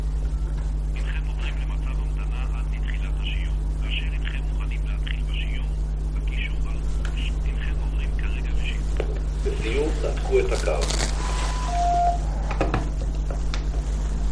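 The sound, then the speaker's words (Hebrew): A telephone is handled and adjusted, producing a few scattered clicks and rustles and a short steady beep tone in the second half, over a constant low hum with faint murmuring earlier on. “סליחה, הייתי צריך לסדר את הטלפון”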